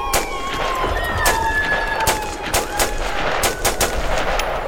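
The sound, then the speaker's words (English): Gunfire from a fight in the snow at a forest's edge: many sharp, loud shots in rapid irregular bursts, with thin whining tones running underneath. “Okay, cover and fire. I'm on it.”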